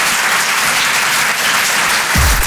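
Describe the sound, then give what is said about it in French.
An audience at a comedy club applauds a performer who has just finished a set of songs. The clapping is loud, dense and sustained, holding steady from start to end. “Faites du bruit, s'il vous plaît, pour Basile sur les chansons.”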